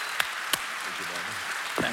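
Audience applause at an evening Apologia event at Westgate Chapel: a steady, even wash of clapping with a few sharper individual claps standing out.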